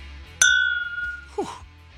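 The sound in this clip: Glasses clink in a toast during a whiskey tasting: one sharp, bright ring that decays slowly, followed about a second later by a second, softer glassy knock over a low background hum.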